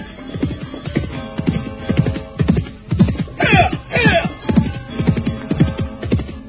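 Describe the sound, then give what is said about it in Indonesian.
Hoofbeats of a horse ridden over a rocky, brushy road toward a village boundary marker: a steady, driving rhythm of thudding clops throughout, with a horse's whinny rising over them midway. “Setelah berkuda melewati jalan berbatu dan bersemak-semak, akhirnya Telik Sandi itu pun mulai melewati tugu perbatasan desa Ganding.”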